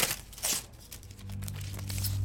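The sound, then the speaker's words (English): Paper crinkling and tearing as a wax-sealed envelope is opened: a few sharp, brief bursts of rustle near the start, then softer crackle, with a low steady hum growing louder toward the end. “And they open this wax sealed envelope.”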